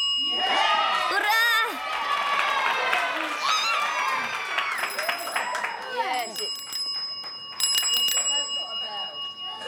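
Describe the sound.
A bicycle bell rings in bright, metallic bursts, some repeated in quick succession, over a busy murmur of voices. A louder flurry of rings comes near the end.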